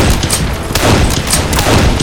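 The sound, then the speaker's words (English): Rifle gunfire from bushwhackers hidden behind rocks and brush on the slopes on both sides of a trail: a loud, dense fusillade of many rapid overlapping shots and booms with no pause. “Up ahead, Matt saw the wink of muzzle flashes from the slopes on both sides of the trail as he galloped toward them.”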